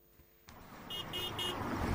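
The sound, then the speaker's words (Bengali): Three short, high-pitched honks from vehicle horns, including loud hydraulic horns, on a busy road in Dhaka, sounding over a steady traffic rumble that swells after a quieter start. “রাজধানীর যে কোনো ব্যস্ত সড়ক এখন যেন এক একটি শব্দ তৈরির কারখানা। হর্ন বাজানো নিষেধ এমন সাইনবোর্ডের ঠিক নিচেই বাজানো হচ্ছে উচ্চ শব্দের হাইড্রোলিক হর্ন।”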